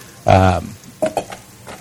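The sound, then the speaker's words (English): Stirring and sizzling of vegetables sweating in a pot for soup: one short, loud burst followed by a few softer stirring scrapes. “are you looking for sweating or actually soft? Sweating. I want them nice and sweat. They'll get really soft when they're actually cooking.”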